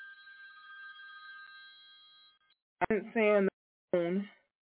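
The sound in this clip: A telephone signals an incoming call with a steady electronic ringing tone that lasts about two and a half seconds, then stops. A voice then speaks in a few short bursts.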